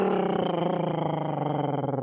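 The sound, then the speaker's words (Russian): Tiger roaring: a loud, sustained, low rumbling roar with a rough, growling texture that holds steady for about two seconds, alone without voices. “Сади приблизился, тигр выскочил и зарычал.”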